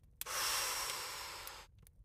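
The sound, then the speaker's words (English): A deep breath drawn in, one long airy rush of steady, fairly loud noise lasting about a second and a half before cutting off into near silence, with no talk. “if everyone is ready, let's take in a deep breath”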